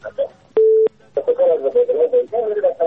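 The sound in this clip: One telephone keypad tone as a radio call-in host takes another caller. It is a short, steady, pure beep, followed by a voice speaking.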